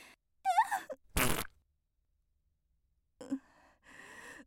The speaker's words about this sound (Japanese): お便秘真っ最中のこんなおなら。